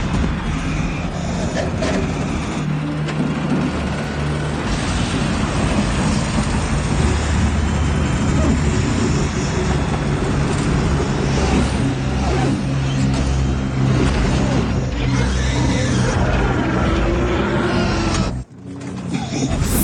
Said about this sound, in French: À l'intérieur du cockpit, tout tremble, l'engin et le corps du pilote. Et puis, il y a une somme de bruit.